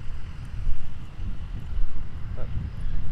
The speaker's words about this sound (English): this wind is not going to be good on these mics